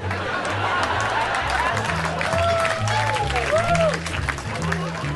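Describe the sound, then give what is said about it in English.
Applause from a stand-up comedy audience, with steady, dense clapping throughout and a voice speaking over the clapping. “Some of those responses, some of those laughs and claps I'll use for other jokes that didn't work.”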